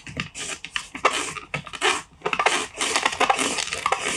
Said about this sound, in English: And then I've got a mandolin. Just love the julienne off the carrot.